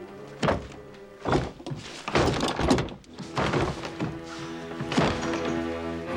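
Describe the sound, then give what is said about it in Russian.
Thuds and knocks of a closed garage door, padlocked from outside, being pushed against its lock. Several heavy, dull thumps come in irregular bursts over a steady background, with no talk. “Марти подходит к закрытой Бифом двери гаража, толкает ее. Снаружи на ней висячий замок.”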